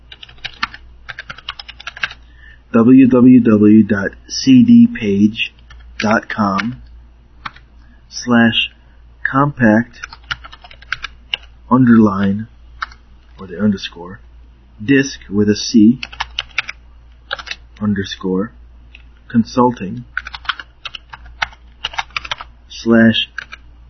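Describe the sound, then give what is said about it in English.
Someone types a long website URL on a computer keyboard, with quick, irregular key clicks running under steady speech throughout. “It's a very long website URL, so I'm going to give it to you as I type it in.”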